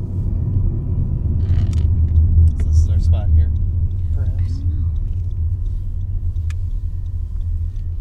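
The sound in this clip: Steady low rumble of a car driving on a rural road in Center Township, Lake County, heard from inside the vehicle, with soft voices talking over the constant engine and road drone.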